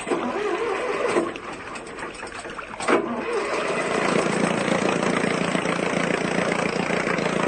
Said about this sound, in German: Werfen Sie den Motor an.